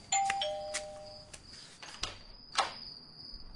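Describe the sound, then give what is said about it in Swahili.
A front-door doorbell rings in a house, a clear two-note ding-dong chime with a higher tone followed by a lower, longer one, then a few faint clicks. “Na hafla, kengele ya mlangoni inalia.”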